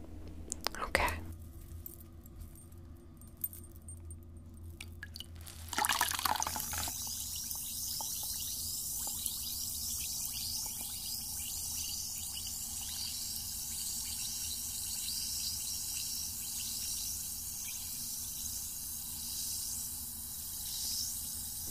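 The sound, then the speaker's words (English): Water mixed with salt fizzes around a rock in a soft, continuous high hiss with fine crackling, which sets in after a few louder noises early on and stays faint and even throughout. “Oh, it's working. Listen, the water's fizzing.”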